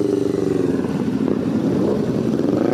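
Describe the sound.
A steady low engine rumble comes from a large group of more than 300 motorcycles riding together in a memorial ride for a fallen rider. The drone is dense and continuous, no single bike stands out, and no one speaks.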